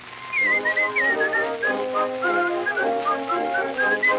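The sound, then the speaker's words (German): A person whistles an imitation of a sparrow singing its song: a steady run of short, high, chirping notes that warble up and down for several seconds. “da zwitschert die Frau Spätzchen folgendes. Jetzt lebt sie herrlich und in Freuden und oft hört man sie das schöne Lied singen.”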